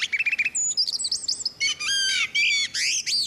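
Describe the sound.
A male blackbird sings a rivalry song of rapid, high, strident twittering and chirping phrases, delivered in several quick bursts with brief gaps, and no voices.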